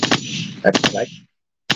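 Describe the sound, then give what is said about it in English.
A machine-gun sound effect plays in a live studio: loud, rapid, rattling bursts of gunfire, a brief silence, then another short burst. “But yes, we do got people shooting here live in the studio audience.”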